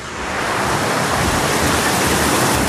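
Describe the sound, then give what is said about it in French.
Water rushes hard down a log flume water ride, a loud, steady, hissing roar that fills the whole clip without pause or voices. “Ah, il y a de l'eau qui coule très fort et c'est là-dedans que je vais aller.”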